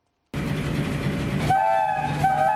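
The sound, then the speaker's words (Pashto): A passenger express train running between Peshawar and Karachi rumbles in abruptly after a brief silence as a steady, loud roll. Partway through, a sustained train horn sounds over it. “د پېښور او کراچۍ ترمنځ چلیدونکي د ریل ګاډي خوشحال خان خټک ایکسپریس نومیږي”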